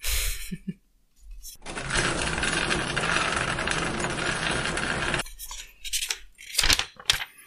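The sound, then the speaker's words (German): A hand rummages through cards in a lottery drum to draw one, making a steady rustling rattle for about three and a half seconds, followed by a few short, sharp rustles. “greife ich jetzt in unsere Lostrommel mhm. und ziehe etwas, äh, nämlich eine Karte, auf die du etwas geschrieben hast”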